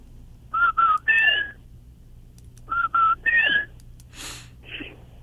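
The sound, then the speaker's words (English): A person whistles an imitation of the loud call of an unseen night animal in the woods: two short clipped notes and then a longer swooping note, repeated twice, followed by breathy exhales. “there's one in particular that I only hear at night. Never seen them, but they kind of whistle. Like they sound something like this.”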